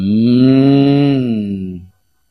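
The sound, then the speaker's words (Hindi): A cow moos once, a deep, sustained, steady-pitched call that tapers off and then stops, heard alone without voices or other sounds. “ये micro गाय है”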